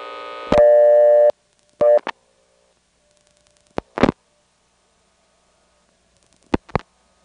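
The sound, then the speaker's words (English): A telephone busy or reorder tone, superimposed by a callback circuit on an intercept line: a steady multi-tone buzz for about a second, then a shorter burst, followed by a few faint clicks amid near silence. “we'll hear this same old recording with the local busy or reorder on top of it.”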